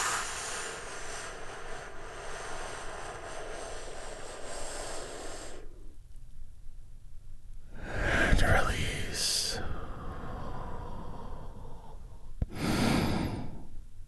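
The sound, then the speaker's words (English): Deep, slow breathing during a guided calming exercise: a long airy breath sound, then a short hush, then two shorter, fuller breath bursts, soft and breathy with no voices. “let's take another big, deep, healing breath right now. Here we go.”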